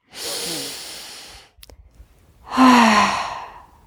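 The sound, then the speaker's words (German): Deep, deliberate breaths during a guided conscious-breathing exercise: a long airy breath, a brief near-quiet gap, then a louder sighing exhale with a faint voiced tone that gradually trails off. “Da machen wir jetzt gleich mal ein bisschen mehr davon. Wir sind jetzt mal drei Atemzuge bewusst. Ja? Okay. Drei Stück ab jetzt.”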